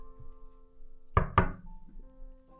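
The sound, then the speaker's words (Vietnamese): Two sharp knocks on a door in quick succession, loud and crisp against a faint steady hum, followed by near quiet. “Có tiếng gõ cửa.”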